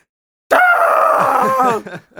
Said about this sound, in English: You screamed so loud. It scared me.